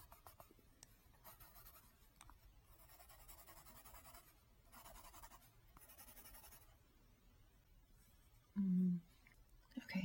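A pencil sketches on paper: faint, scratchy strokes come in short bursts over near silence.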